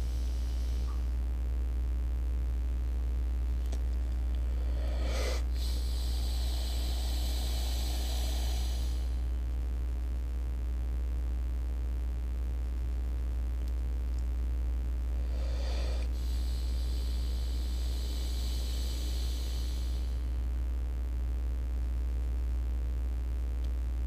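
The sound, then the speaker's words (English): Forceful breaths during a guided breathing exercise come as two long, airy, noisy bursts of inhaling and exhaling with a pause between them. A steady low hum runs underneath throughout. “On every inhale, have that thought. I'm getting rid of everything that doesn't belong to me, every bit of debris and crust that's ready to go, and then every exhale, you push it down. Another 8 or 10 breaths.”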